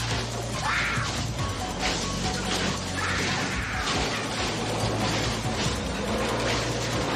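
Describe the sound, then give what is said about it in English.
A car plows through a stand of small trees in an audio drama, with crashing and whacking impacts over a low, droning engine hum that runs throughout. “The car hunts Jamie. Please! She runs through a batch of small trees. Please! The car plows through.”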